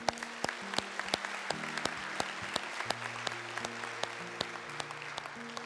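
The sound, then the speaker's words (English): A church audience applauds people who have just prayed together. Crisp, separate claps come at an uneven pace over sustained low keyboard tones, all fairly quiet. “can we just give those a hand that just prayed that prayer?”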